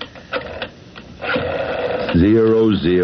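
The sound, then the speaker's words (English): A telephone being dialed as a radio drama sound effect, mechanical clicking and whirring followed by a steady buzzing tone, with a voice heard early on. “What do I do, Pete? Just dial the operator?”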